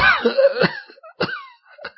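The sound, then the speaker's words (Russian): An old man coughs in a few harsh, rough bursts. A longer fit comes first, then shorter hacks follow, with no talk. “Старик закашлялся.”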